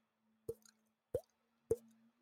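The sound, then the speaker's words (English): A voice imitating dripping water makes three hollow, liquid plops at an even pace, each a short pitched pop heard alone against silence. “I don't know if I can still do it, but I used to be able to do drips.”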